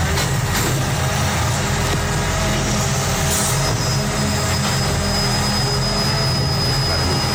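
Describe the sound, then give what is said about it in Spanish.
Old garbage truck emptying cardboard containers on a city street at night, giving a loud, steady mechanical roar with a thin high whine that enters midway and holds to the end. “Un camión de recogida de basura. ¿Seguro? Te diría que es de cartón, precisamente, o sea, recogida de contenedor de cartón,”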